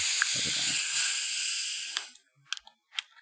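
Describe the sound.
A drink can cracked open releases a steady hiss of escaping gas lasting about two seconds, followed by a few small, sharp clicks.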